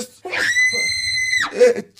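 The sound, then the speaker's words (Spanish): A woman's scream sound effect: one loud, sustained, high-pitched shriek lasting about a second that drops in pitch as it ends, with short vocal sounds just before and after. “su efecto de grito de mujer hace asustar a mi hijita”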